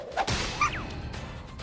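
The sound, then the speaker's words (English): A video game staff strikes a slime enemy: two quick whooshing swings land as sharp thwacks, the second trailed by a brief falling swish tone, all over a low game background. “She swung the staff and hit the slime, but I didn't see any blazing.”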